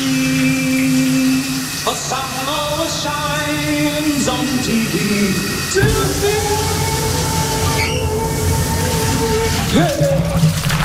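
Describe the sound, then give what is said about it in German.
Running shower water hisses loudly and steadily throughout, while a bright synth jingle of sustained tones and shifting notes plays over the spray. “Nicht gucken. Neulich in der Hamburg 2 Lieblingsstar-Dusche.”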